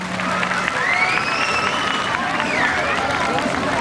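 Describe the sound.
A festival audience claps and cheers at a culture and arts night in a town square, a dense, steady roar of applause and crowd noise with a few high, curling whistles rising above it.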